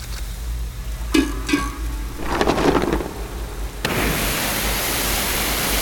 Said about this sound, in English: All right, let's just hose down this entire corridor.